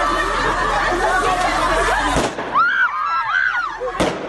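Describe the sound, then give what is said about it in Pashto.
Protesting women shout in a Kabul street as Taliban forces fire guns to disperse them: a dense, steady crowd roar, then two sharp, loud bangs, with higher wailing shouts rising and falling between them. “دا د اعتراض کوونکو مېرمنو شور او د طالب ځواکونو د ډزو غږونه دي چې ور بیا د کابل”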